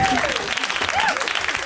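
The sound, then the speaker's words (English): Brief burst of audience applause for a comedian, thick and continuous clapping at a steady level throughout. “Let's hear it right now. Already a round of applause, and keep it going”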